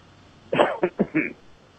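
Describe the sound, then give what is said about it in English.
A little cough: four short, harsh, throaty bursts in a quick run, rising out of a quiet background and then dropping back to quiet. “Got a little cough going here.”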